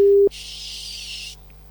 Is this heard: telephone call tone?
yes